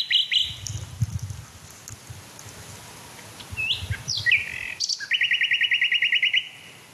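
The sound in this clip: A male songbird sings at dusk over fields and woodland edges. It gives a few short, high whistled phrases and ends with a rapid, bright trill of repeated notes, with a low rumble underneath at first.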